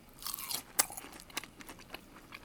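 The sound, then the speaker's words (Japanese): Crisp crunching and chewing of a fried tonkatsu pork cutlet dipped in truffle salt, a few sharp bites and softer munching, fairly faint, with no talk. “そして今度ね、トリュフ塩につけて食べるというね、これもちょっと贅沢ですけれども、いただきます。”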